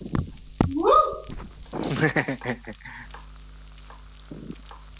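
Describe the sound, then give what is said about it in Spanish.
Crackling sizzle and scraping stirs of food cooking in a clay pot, in bursts that swell and fade, with a voice heard briefly near the start. “Ahora, por mi parte, todo ya está dentro de la olla de barro. Entonces va a tomar ahí un tiempito hasta que se haga.”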